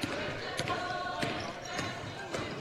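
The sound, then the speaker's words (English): A basketball is dribbled up the court in a women's game, with about four steady, evenly spaced bounces thudding under crowd noise and commentary. “Searcy dribbles all the way to the basket.”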